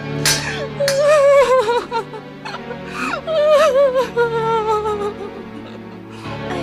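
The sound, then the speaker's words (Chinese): An old woman cries in distress after being robbed, her voice breaking into wavering, sobbing wails whose pitch bends up and down across several loud bursts with short gasping pauses between them. “怎么有人在哭呢？原来是老太太的钱又被人家抢走了”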